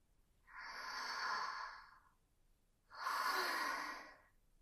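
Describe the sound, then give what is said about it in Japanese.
Two deep, slow breaths taken to calm down, each a long, airy exhale lasting over a second with a short pause between, fairly soft and with no speech. “落ち着いて深呼吸、深呼吸。”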